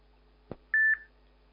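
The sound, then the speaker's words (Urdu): A soft click, then a single steady electronic beep as a phone call is ended, the tone holding for about a third of a second before stopping in quiet. “اب آپ کو میں دعاؤں کے ساتھ آپ کی کال بند کر رہا ہوں”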